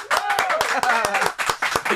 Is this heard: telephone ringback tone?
no